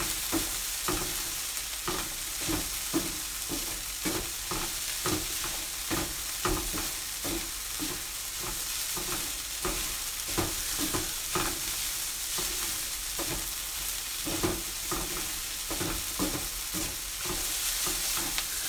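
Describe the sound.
Onions stir-frying in a pan for curry: a constant sizzle of hot oil cut by many sharp, repeated scrapes and knocks of stirring at an uneven, brisk rhythm, with no talking.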